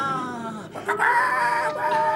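A hen clucks in drawn-out, tonal, slightly wavering calls that run almost continuously.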